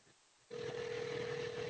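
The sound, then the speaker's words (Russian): A telephone line tone, heard as someone calls a studio number, switches on abruptly after a quiet half-second and holds steady, level and unbroken to the end. “Я наберу номер телефона студии”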